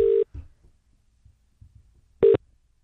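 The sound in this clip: Touch-tone telephone dialing heard as two short, steady mid-pitched beeps, one at the start and one near the end, with faint low rustling between them.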